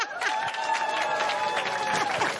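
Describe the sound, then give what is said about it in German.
Audience applause for the tent crew, a dense, steady clatter of clapping that holds at one level from start to finish. “Ein Applaus für unsere Zeltcrew.”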